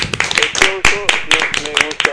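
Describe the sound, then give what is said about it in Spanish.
Studio applause comes as quick, irregular claps from a few hands. Voices keep talking over the clapping the whole time. “Un aplauso.”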